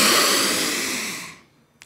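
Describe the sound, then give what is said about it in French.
One long, deep breath during a breathing exercise: a loud, airy rush that fades steadily over about a second and a half, then drops to near silence. “C'est pour alors, le diaphragme. Ce que vous faites une grande inspiration.”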